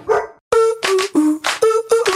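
A dog barks a quick series of short, tonal barks in a supermarket advertisement jingle, loud and rhythmic, with no talking.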